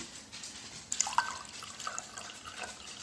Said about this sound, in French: Pas dans les céréales, hein, l'eau, hein, dans un verre.